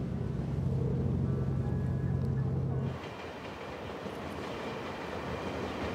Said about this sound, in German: Weiter unterwegs Richtung Norden, mit der Bahn. Wir fahren durch den dicht besiedelten Großraum von Kaohsiung.